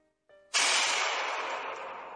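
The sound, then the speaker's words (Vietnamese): A single pistol shot used as a sound effect in a dramatized story: a sharp, loud crack with a long, slowly fading noisy tail, preceded by a faint brief tone. “Một tiếng súng vang lên, khẩu súng của Diệp Mạc”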